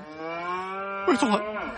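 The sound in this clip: A cow moos on a farm where the herd is sickened by a toxic yellow fog, giving one long, low, sustained call whose middle swells and wavers in tone before settling back.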